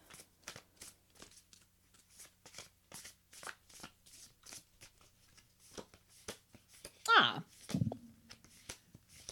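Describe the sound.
A deck of animal, plant and land energy oracle cards is shuffled for a card reading, with many quick, evenly spaced riffling bursts in a steady rhythm, and a voice cuts in briefly near the end.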